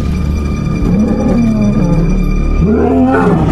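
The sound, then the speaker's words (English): A lioness growling at a passing elephant herd in the wild: a loud, low, rumbling growl that rolls on continuously, its pitch wavering up and down, with a fresh surge near the end. “A lioness watches them from a mound of earth and growls.”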